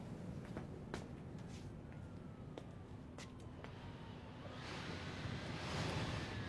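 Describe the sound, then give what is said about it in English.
Wind picking up outdoors as a steady rushing, hissing noise that swells louder in the final seconds, with no talk. “The wind's picking up. It's going to tip.”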